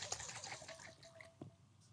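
Watermelon juice being drained in a few quiet gulps, with faint wet liquid and trickling sounds and a slightly sharper swallow near the end.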